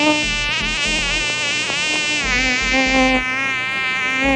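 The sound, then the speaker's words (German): A mosquito buzzes in a loud, continuous, high-pitched whine that stays close and steady throughout, wavering slightly in pitch. “Ja, Mücken, die kleinen Plagegeister.”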